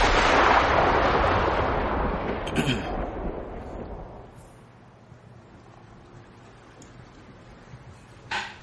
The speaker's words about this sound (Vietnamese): đi kèm với cả tiếng sấm vang trời, là một tia chớp từ trên cao giáng xuống.